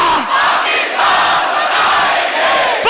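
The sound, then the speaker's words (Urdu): A crowd chants a patriotic slogan about Pakistan in loud, sustained unison shouts, with brief dips between phrases. “تو یہ نعرہ بھی ضرور اپنے ملک کو سلامی کے لیے پیش کرنا ہے۔ پاکستان بنایا تھا، پاکستان اتنی آہستہ نہیں، پاکستان بنایا تھا،”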